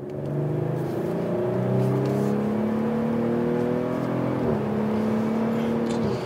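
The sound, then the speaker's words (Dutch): A new, more powerful Audi SQ5 drives and accelerates with a steady engine drone whose harmonic tones climb gradually, dip briefly at a gear change, then climb again. “We gaan rijden. De rijimpressie. De nieuwe Audi SQ5 heeft veel meer vermogen gekregen.”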